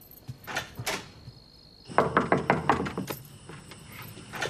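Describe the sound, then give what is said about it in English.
Knocking on an apartment door, a quick, evenly spaced run of sharp raps after a few softer thuds. “He leaves and knocks on Mrs. Choi's apartment door.”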